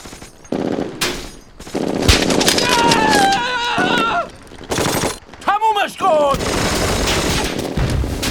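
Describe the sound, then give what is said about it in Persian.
Bursts of machine-gun fire in a battle against German troops, loud and repeated across the stretch, with shouting voices rising over the shooting. “آتش، آتش، آلمانی ها اونجا، خط آتش روی اونجا حفظ کن.”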